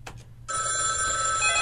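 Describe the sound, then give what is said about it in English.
A telephone bell rings in a continuous, bright metallic trill that starts abruptly after a couple of brief soft sounds and carries on loud and unbroken. “get those phones”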